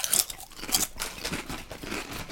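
Crisp crunching of salt and vinegar potato chips being bitten, a few sharp brittle bursts followed by softer crackling chews, heard alone.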